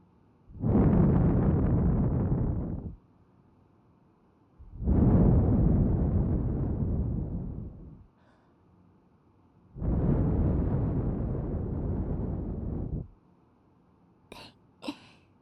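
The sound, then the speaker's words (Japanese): Gentle breath blown into the listener's ear: three long, soft, breathy whooshes of about three seconds each, separated by quiet pauses, followed by two brief sharp sounds at the end. “今度はもっと優しくフーフーしてあげる。”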